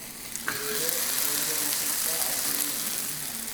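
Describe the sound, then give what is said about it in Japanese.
Marinated offal (horumon) sizzles on an iron griddle, a dense steady hiss flecked with small crackles and pops, with no talking. “美味しそうな音ですね。ホルモン鉄板焼きやってまいりました。”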